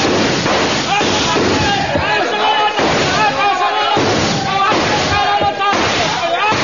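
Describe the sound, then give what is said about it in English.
A rifle volley fires on command as several sharp gunshot bursts cut through loud, dense shouting and commotion. “Your stations, men! Your stations! Ready! Aim! Fire!”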